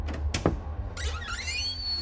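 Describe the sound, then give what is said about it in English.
A meeting-room door being opened: a couple of quick clicks, then wavering squeaky tones like a hinge creak, over a steady low background hum. “I wonder if I should open this door or... Yeah, open it!”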